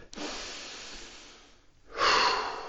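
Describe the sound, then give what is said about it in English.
A person takes two deep breaths while lying relaxed on a bench during strength training. The first breath is long and soft, and the second is louder and rougher. “you're just trying to take some big breaths in”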